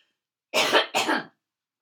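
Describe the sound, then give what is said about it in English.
Two short, forceful coughs in quick succession, loud and alone against silence. “Excuse me, I'm going to have to cough.”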